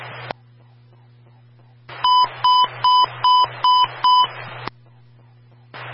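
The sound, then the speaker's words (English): A fire dispatch radio sends its emergency transmission test tone: six evenly spaced high beeps, framed by squelch bursts as the radio channel keys up and drops off. “Welcome to standby for the emergency tone test.”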